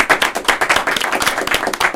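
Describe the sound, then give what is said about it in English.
An audience clapping for an interview guest: loud, quick, slightly uneven claps in a continuous brisk rhythm, with no voices over them. “Clap it up for Nasir.”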